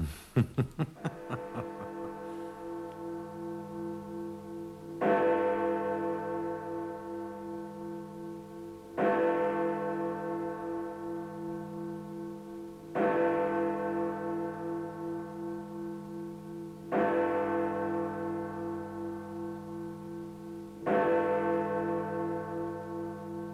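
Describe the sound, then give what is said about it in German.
A pressed bell rings out in a quiz scene: six resonant tolls at a slow, even pace about four seconds apart, each striking loudly and then slowly fading under a lingering hum. “Und jetzt sei so gut und drücke auf die Klingel”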